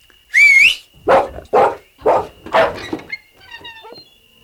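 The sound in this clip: A Doberman barks several times in sharp, evenly spaced bursts. A high tonal call comes before the barks, and soft, thin whimpering follows them.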